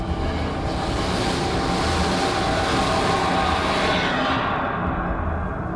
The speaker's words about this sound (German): Ein Zug näherte sich und fegte haarscharf an mir vorbei.